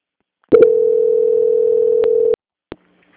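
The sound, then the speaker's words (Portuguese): A telephone line tone during a call transfer: a single steady, mid-pitched tone holds for about two seconds between sharp line clicks, then another brief click and silence. “Só um momentinho, não desliga. Transferência.”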